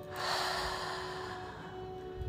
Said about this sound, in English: Taking a deep inhale in through the nose and out through the mouth.